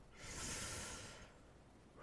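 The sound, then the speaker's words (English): A deep breath is drawn in as a single soft, airy inhale lasting about a second. It is faint and alone, and fades into near silence. “Take a deep breath”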